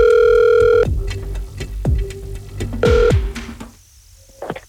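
Ringback tone of an outgoing telephone call. Two loud electronic ring bursts are separated by clicks and a lower tone, and the line then goes quiet before a faint brief noise.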